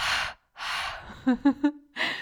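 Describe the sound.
Forceful breathy exhales pushed through the back of the throat, as in a yoga breathing exercise: two long hissing rushes of air, then three short voiced pulses, then another breathy rush begins.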